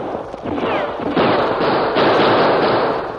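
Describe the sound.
Gunfire crackles through a shootout in an old-time Western radio drama: a dense, noisy clatter of many shots that thickens after the first second and stays loud and sustained to the end, with no voices.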